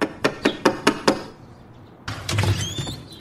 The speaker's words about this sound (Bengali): দ্রুত পদে বোমকেশ ওপরে উঠে গিয়ে ফনির দরজায় টোকা মারল